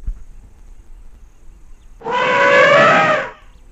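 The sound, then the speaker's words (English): An elephant trumpets, a magnificent great grey elephant making its way to a watering hole on safari. After quiet low rumbling, a single loud, wavering, brassy blast rings out for over a second, then stops. “Oh, no, that's not me screaming for a second or third breakfast. That's the sound of a magnificent great grey elephant making his way to a watering hole as he traipses by on a safari”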